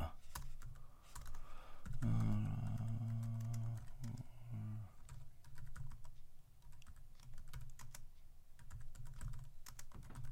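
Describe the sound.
Fast typing on a computer keyboard: many quick, irregular clicking keystrokes in bursts and runs, with a low voice briefly sounding underneath them near the start.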